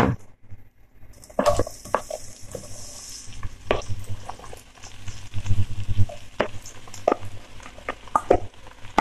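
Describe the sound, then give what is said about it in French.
Endives poured into hot oil in a pan sizzle and hiss, mixed with stirring and uneven knocks of a utensil against the pan throughout. “je verse les endives dans le plat. Je pense que ça va réduire quand même euh, par la cuisson”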